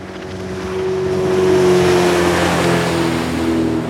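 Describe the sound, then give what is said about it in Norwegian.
Racing boat engine running at speed, a steady droning hum with a strong harmonic tone that swells slightly in loudness midway, then holds evenly to the end. “Bak rattet på Rasebåten sitter en fyr fra Grimstad med piggsveis. Toffen Gunnufsen har ikke bare sans for høy fart.”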